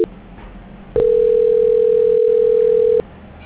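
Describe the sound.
During a telephone call transfer, a single steady pure tone sounds loudly for about two seconds and then cuts off. Low line hiss lies before and after it.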